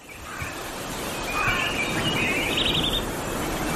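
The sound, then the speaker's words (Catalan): Birds sing in a few short chirping phrases over a steady rushing background noise. “Els ocells”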